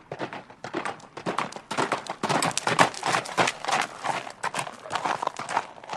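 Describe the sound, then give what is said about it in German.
Hoofbeats of a small pony galloping: a quick, steady run of clattering beats, fairly loud and continuous throughout. “dann lauf ich im Galopp”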